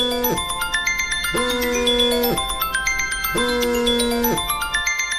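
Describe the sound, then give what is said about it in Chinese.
A phone rings with an incoming call, playing a melodic electronic ringtone. A bright tune of bell-like tones repeats in short phrases about every second, steady and fairly loud, with no voices. “小李来电话了。哎，小荣，你接。你怎么不接呀”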